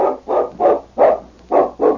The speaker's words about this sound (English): The great dog ran across the clearing, a flash of silver in the moonlight, and then he disappeared in the forest.